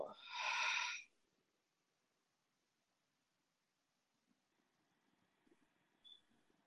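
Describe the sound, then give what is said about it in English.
A single deep, airy breath during a guided breathing exercise, in through the nose and out through the mouth, lasting about a second. Near silence follows, broken only by a few faint soft sounds. “join me for one more deep breath in through the nose and out through the mouth, breathing in and letting it go.”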